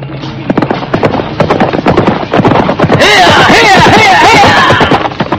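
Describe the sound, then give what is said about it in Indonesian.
Rapid hoofbeats of a horse ridden hard out of a royal city at dusk, a dense, quick pounding rhythm that continues throughout, joined partway by a louder, hissing rush of noise. “nampak dari kejauhan sesosok penunggang kuda berlari menuju luar kota Raja Majapahit”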